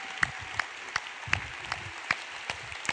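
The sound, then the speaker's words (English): Applause from a church audience welcoming a guest speaker: a steady, faint wash of clapping with a few sharper single claps standing out. “would you put your hands together and welcome the Rudy Rudiger to People's Church.”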